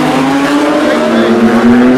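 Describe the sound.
GT class race cars passing at speed: a loud, continuous engine drone whose pitch climbs slowly and evenly throughout.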